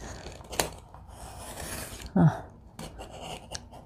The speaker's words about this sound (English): I'm going to get rid of that dull piece. It's going to take me 100 years to cut through that otherwise.